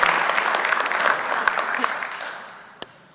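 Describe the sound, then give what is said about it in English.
Audience applause greets an activist introduced at an event, a lively burst of many hands clapping that gradually thins and fades over about three seconds, ending with a single sharp clap. “Please join me with a generous applause for um, our friend and ally, super activist Jen Wood.”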